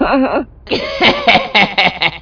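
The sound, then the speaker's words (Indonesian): A person coughs in a few short, rough bursts that follow a brief voiced sound and a pause. The coughs sound fairly loud and uneven, with a throat-clearing quality. “Apa tuh? Oh, teman kita batuk.”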